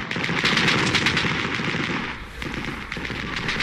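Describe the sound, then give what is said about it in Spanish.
Battle sounds of machine-gun fire from a 1982 war on remote, cold islands: dense, continuous rattling bursts of gunfire over a rough, rumbling roar, loud and steady throughout. “Entre tantos sonidos de guerra, bombas, ametralladoras, gritos y lamentos,”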